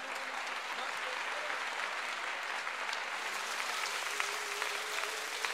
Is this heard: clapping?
yes